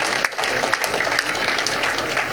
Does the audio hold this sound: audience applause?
yes